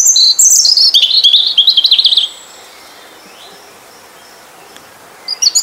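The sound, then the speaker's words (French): European robin singing its main song: a loud, rapid run of high, thin, warbling trills and twittering notes for about two seconds, then near silence, before a few brief high notes return at the end. “d'entendre ce fameux rouge-gorge qui est à chaque fois un ravissement, en tous les cas pour moi, parce qu'on en voit, je trouve, de moins en moins. On va écouter le son qu'il fait, le chant principal.”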